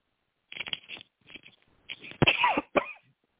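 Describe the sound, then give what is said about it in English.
A few short, dry coughs come in quick bursts, faint and alone, with brief pauses between them. “Excuse me for coughing.”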